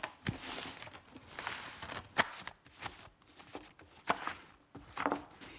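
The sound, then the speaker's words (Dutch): A deck of playing cards being shuffled and gathered into a pile, heard as a few faint, brief papery rustles and riffles with short pauses between them. “schudden. Ja, schudden zo in de stapel.”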